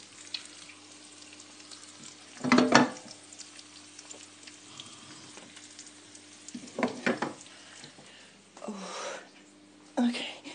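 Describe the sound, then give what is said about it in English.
Food sizzles in a frying pan with a steady hiss that runs throughout, broken by a few louder bursts of crackle. “Let me turn off the pan so it doesn't burn.”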